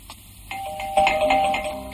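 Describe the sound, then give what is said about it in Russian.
Electronic doorbell ringing at an apartment door, giving clear sustained mid-pitched chime tones that overlap and ring on over steady background noise. “Борис звонит в квартиру Михаила”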